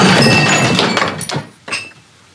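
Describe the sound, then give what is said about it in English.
Ice breaking under a cane in a film scene: a few hard cracking impacts with a brittle, glassy breaking quality, ending in one sharp crack that rings out and fades. “The ice is going to break. Nice. And the ice does break”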